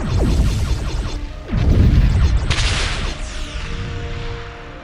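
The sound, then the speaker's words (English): Enemy starship weapons fire hitting a ship in an audio drama: a few descending whooshing blasts with rumbling impacts, then a bright crashing burst midway that trails off into a low roar. “Targets acquired. Ready to fire. Fire! Some damage to their shields. They're returning fire.”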